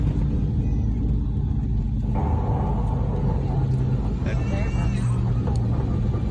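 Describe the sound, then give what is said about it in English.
Heavy airplane rumble as the nose gear hits the runway and drags during landing, a loud continuous roar that shifts abruptly partway through and stays dense and steady afterward. “That was the nose hitting. Dragging. And then the plane is basically stopped.”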